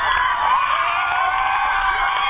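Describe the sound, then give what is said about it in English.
Loud, continuous cheering and shouting from classmates and teachers at the finish line of a school race, a sustained, unbroken crowd roar with overlapping high voices and whoops. “his rally, teachers watching at the end, the cheers at the finish line.”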